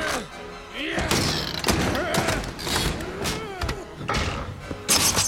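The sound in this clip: A door being opened in a Monsters Inc. scene, heard as a few heavy thuds and mechanical clunks in a busy, loud mix, with voices present throughout.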